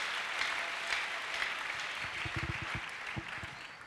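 Congregation applauding during a church service: steady, dense clapping throughout with crowd noise mixed in and a few low thumps partway through.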